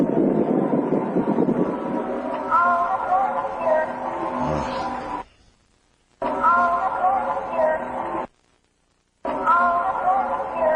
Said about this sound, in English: That's really creepy, you guys. That's really creepy. I can hear the wind. One more time, folks. I can hear the wind, and then I think she's right.